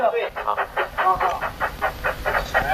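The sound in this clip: Train noise from a train departing, heard as a steady run of many regular rhythmic pulses with a bright, slightly squealing edge over a low rumble.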